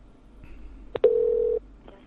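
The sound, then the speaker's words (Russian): Telephone dialing: two quick keypad beeps, then a steady half-second electronic tone, all fairly faint over a low background hum. “Давайте еще раз наберем.”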